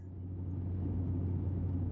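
A van driven fast gives a steady, low engine rumble and road drone that holds at an even level throughout, with no voices.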